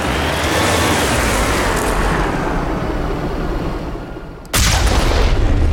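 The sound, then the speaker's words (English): Heavy artillery fire in a video game, shot from the Mako vehicle at husks: a loud, sustained booming roar that sags and thins, then cuts back in with an abrupt, forceful blast that holds to the end. “Yeah, that was very satisfying. Firing heavy artillery get the husks.”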